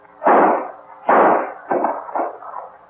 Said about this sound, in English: Put that gun to his head and let him have it.